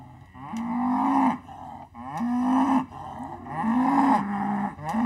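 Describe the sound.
A mother cow moos repeatedly, calling for her lost calf: several long, loud, low bellows that rise slightly and then hold, separated by short pauses.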